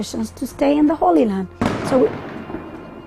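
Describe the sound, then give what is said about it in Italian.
A sharp blast from tear gas canisters and stun grenades fired from an Israeli army tower at a refugee camp cuts in after a man speaks, striking hard and then fading into a rumbling decay. “Abbiamo appena sentito il rumore dei gas lacrimogeni e delle bombe sonore. Provengono dalla torre dell'esercito israeliano qui, per disperdere i ragazzini del campo profughi,”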